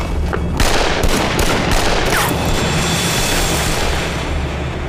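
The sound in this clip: Gunfire in a dramatic scene: a rapid volley of sharp, loud shots bursts out over the first two seconds, then gives way to a dense, noisy rumble that carries through to the end without any voices.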